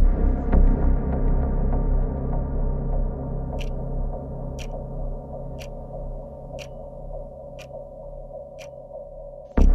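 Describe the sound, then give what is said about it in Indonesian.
A clock hand ticks seven times at a steady one-second pace, the sharp clicks starting a few seconds in over a loud, constant low hum. “Aku mendengar dengan jelas detak jarum jam.”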